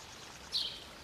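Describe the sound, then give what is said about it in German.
Small river water rushes gently at a canoe launch point, a faint, steady hiss with a brief brighter swell around the middle. “Sanft rauscht das Wasser des Flüsschens Vechte an der Kanu-Einstiegsstelle.”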